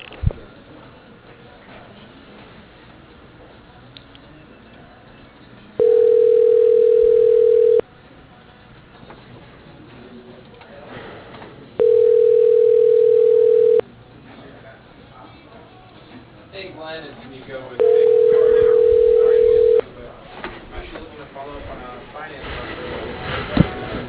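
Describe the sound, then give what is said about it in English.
A telephone ringback tone sounds while a call is being forwarded: three steady buzzing tones, each about two seconds long, at even intervals. Faint background noise fills the gaps. “I'm going to forward you to him right now.”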